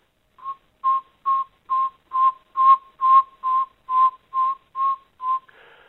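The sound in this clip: A northern saw-whet owl gives its whistled call: a series of twelve evenly spaced, mid-pitched toots repeated in a steady, mechanical rhythm, each short and clear with silence between.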